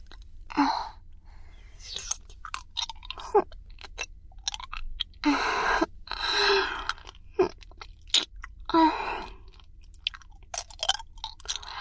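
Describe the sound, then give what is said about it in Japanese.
A hard candy is sucked and rolled in the mouth, giving wet smacks, soft clicks and crunchy mouth noises in irregular bursts against a quiet background. “あなたも飴食べますか？って言っても今あるのは私が舐めてるこの飴だけなんですけど”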